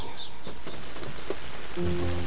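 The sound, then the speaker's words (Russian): Raindrops drum on the rusty roof of a house in Liberia during the rainy season: a faint, steady patter of scattered drops, with a low sustained tone joining near the end. “Капли стучат по ржавой крыше моего дома, сезон дождей.”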